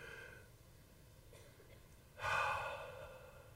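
One deep breath, a soft, airy rush of air lasting about a second, rises suddenly out of near silence and then tapers off gently.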